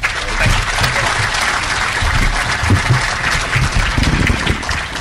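An audience gives dense, steady applause at a Farm Bureau gathering, welcoming Attorney General and Democratic gubernatorial candidate Jay Nixon. The loud clapping holds without a break for the whole stretch.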